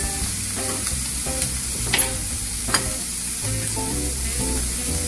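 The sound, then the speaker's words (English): Steady sizzling and stirring in a pan of chopped spinach as two eggs are scrambled for a sausage and goat cheese scramble, a continuous frying hiss broken by a few sharp utensil clicks. “And while that's going on, I'm gonna scramble my eggs. You see this goes really fast. So I scramble my two eggs.”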